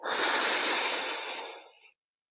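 One long breath, an airy, hissing rush of air that holds for over a second and then tapers off into silence, heard alone.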